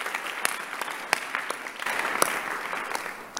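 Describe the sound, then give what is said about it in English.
A church audience applauds during a worship service: many hands clap in a dense, bright patter with sharper individual claps standing out, steady throughout at a moderate level. “Blessed are those who are clapping for Jesus.”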